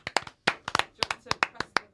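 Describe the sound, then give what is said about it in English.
Applause from an audience: scattered, uneven hand claps in quick bursts, fairly faint, mixed with background voices. “Should we do a round of applause? Round of applause.”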